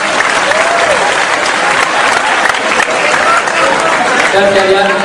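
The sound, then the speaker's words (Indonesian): Applause from an audience of adults and children at a stage event, dense and steady clapping that lasts the whole five seconds, with voices heard beneath it. “Tepuk tangan yang pertama kita.”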